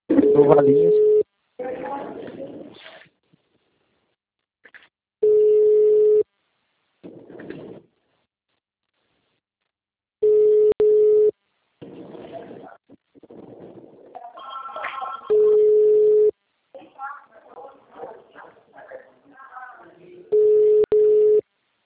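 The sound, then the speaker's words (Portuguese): An outgoing phone call rings out in five steady, mid-pitched ringback tones of about a second each, evenly spaced several seconds apart, while people talk in the gaps between them. “Peraí que eu vou ligar para as líderes delas, tá?”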